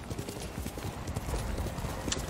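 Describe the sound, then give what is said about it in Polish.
Horse hooves clip-clopping in a video game, a loud, quick, steady run of hoofbeats that continues throughout. “Gdzie jest konik? Tu jest konik. Nie poddawaj się, koniku.”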